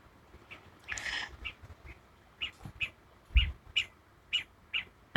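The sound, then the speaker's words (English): Blue-scaled quail calling as they gather at a bird feeder: a fairly regular series of short, sharp chirping calls, after an earlier brief burst of rustling noise. “Those are the blue-scaled quail. We call that the quail train because that's like partly the gathering all of the quail together, and they come trotting up in a line up to the bird feeder.”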